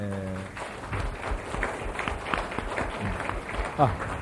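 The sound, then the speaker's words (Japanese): Applause at a community meeting as officers are introduced: a brief voice at the start, then faint, steady clapping from a gathering. “皆さん拍手で、”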